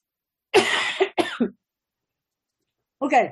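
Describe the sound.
Coughing and throat clearing from an itchy throat: a couple of harsh, rasping bursts close together, a short silence, then one more cough.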